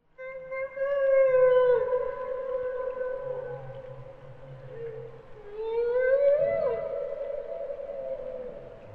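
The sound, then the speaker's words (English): A group of male humpback whales sings at night in autumn: long, drawn-out tonal moans hold steady, then sweep upward into a rising wail, with lower, softer tones layered beneath the main voice. “Listen carefully to this group of male humpback whales singing. The song starts with just one whale, but then a second and possibly a third one joins in.”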